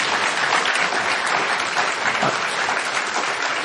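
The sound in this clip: An audience applauding at a Commonwealth Club of California event, dense, continuous clapping that holds at a steady, fairly loud level from start to finish.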